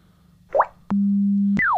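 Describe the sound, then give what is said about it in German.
After its right button is held down, a handheld colour-recognition device beeps: a short rising chirp, then a click into a steady low electronic tone lasting under a second, closed by another click and a quickly falling tone. “So, es piepst, so ähnlich wie Seeing AI das auch gemacht hat.”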